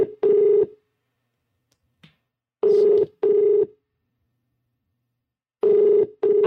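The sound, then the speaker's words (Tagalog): Ringback tone on a phone call to Cebu City Hall: a steady, buzzy tone sounding in paired pulses, repeating three times with long silences between. “atong tawagan si Earl Padronia sa Cebu City Hall”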